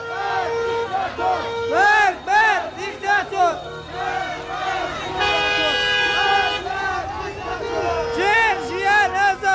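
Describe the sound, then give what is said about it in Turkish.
A crowd of Iranians celebrates Iran's football loss to the USA, with many loud, blaring horn toots and honks rising and falling over shouting crowd noise. “İran Amerika'ya yenilince İran'da bu durumu böyle coşkuyla kutlayan vatandaşlar da vardı.”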